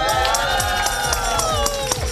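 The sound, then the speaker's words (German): A school class of eighth-graders cheers together, a loud burst of many young voices shouting and whooping at once, sustained and overlapping without a break. “Und auch da, wenn das passiert, machen wir nochmal einen gemeinschaftlichen Jubel, oder?”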